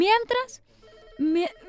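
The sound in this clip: A telephone rings with an incoming call, sounding as a couple of short, bright electronic bursts separated by a brief pause.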